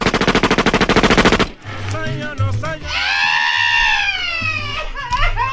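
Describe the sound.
Rapid machine-gun fire in a comedy skit, a fast, even burst of loud shots lasting about a second and a half. It cuts off as voices take over, one rising into a long, shrill cry.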